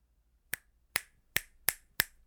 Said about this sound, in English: If you're snapping along with me, I at least hope you are not driving.